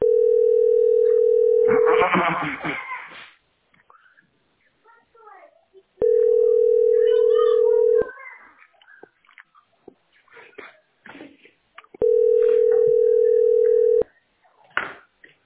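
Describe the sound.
A telephone ringback tone sounds as a call goes unanswered: three steady, low-pitched two-second tones with long gaps between them. People, including a child, talk during the gaps.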